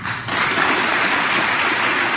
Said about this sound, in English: Okay, a confused applause.